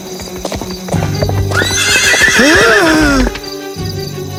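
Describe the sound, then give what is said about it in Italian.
A horse's hooves clip-clop steadily on a street while the horse lets out a loud whinny midway, its shrill, wavering cry rising and falling before the hoof beats continue alone. “Non dovresti andare a cavallo in mezzo a una strada!”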